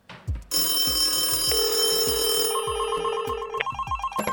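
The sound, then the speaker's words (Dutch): A telephone ringing for a call to travelers at Schiphol airport: a steady electronic ring tone that steps between pitches, over a soft, regular low thumping pulse, with no voices. “hebben we gevraagd om een aantal van de reizigers van Schiphol te bellen en te vragen naar de oplossing voor dit probleem.”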